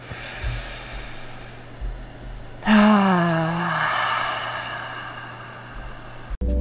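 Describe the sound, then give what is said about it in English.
A deep breath that ends in a loud, voiced sigh out, its pitch falling and fading over about a second, framed by quieter breathy hiss before and after. “Let's take a deep breath here.”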